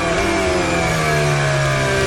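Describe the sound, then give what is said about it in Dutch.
A racing car engine recorded onboard gives a loud, continuous high-pitched whine. Its layered tones drift slightly in pitch throughout. “Onboardgeluid van Oscar Piastri. Leclerc in zicht.”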